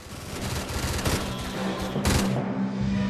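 Gunfire in a shooting battle: dense, rapid bursts of shots pour out continuously, with a few sharper, louder cracks standing out from the steady loud barrage.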